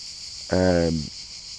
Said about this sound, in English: Yeah, you can probably hear that sound in the background, which I'm presuming are crickets sitting sort of in the shade under these massive trees.